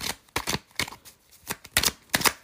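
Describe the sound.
Tarot cards being shuffled in several quick papery riffling bursts with short pauses between them, fairly soft and with no voices.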